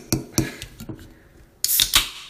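A bottle or can of Smith and Forge hard cider being opened: a few light clicks and taps, then a sudden bright hissing burst with a second hiss just after, fading quickly.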